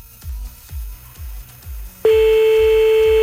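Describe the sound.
A telephone call being dialled: a run of regular, evenly spaced low pulses, then a sudden loud, steady electronic tone that holds unbroken to the end.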